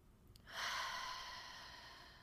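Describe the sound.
One long, deep breath during a guided breathing exercise: a soft, airy, unvoiced rush that swells quickly after a short quiet moment, then trails on steadily and slowly fades.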